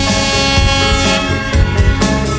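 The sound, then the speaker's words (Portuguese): An air horn blast on a sound cart at a street party. A loud, steady, harmonic-rich horn tone is held through the whole clip over a few deep bass thumps. “solta a buzina.”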